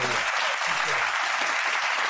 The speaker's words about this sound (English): just give a round of applause for Los